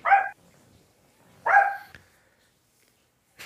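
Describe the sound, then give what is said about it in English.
A small dog barks in short, sharp yaps: two clear barks a second and a half apart, then a third cut off at the end, with quiet gaps between them. “have to deal with a barking little dog every now and then.”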